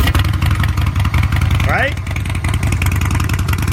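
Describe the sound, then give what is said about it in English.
A Harley-Davidson motorcycle engine runs with a loud, deep, pulsing rumble that throbs steadily throughout. A person speaks briefly over it midway. “Harley purchasers for the better part of the last century want this sound.”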